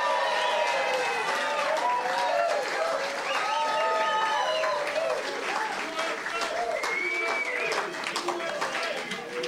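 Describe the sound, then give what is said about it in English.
Audience applause welcoming a guest at a packed live event in Dana Point, California, with about 100 people present: dense, steady clapping that holds loud throughout, mixed with cheering voices. “Welcome to the War Room, Steve Bannon. Thanks for being with us. Let's give him a big hand.”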